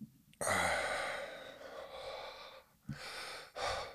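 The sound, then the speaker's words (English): A single puff from an albuterol inhaler drawn in with a long, forceful breath: a sharp breathy rush that tapers off, followed by two shorter audible breaths, with no talking. “Let's try the albuterol inhaler and see if we can knock that out. Whoa, that was like a shot. I'm inhaling it.”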